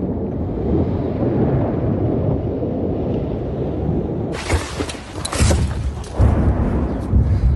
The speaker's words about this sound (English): you can see more artillery rockets apparently be firing from Russian territory towards the territory, I would say around Kharkiv. I don't know if you can hear this right now.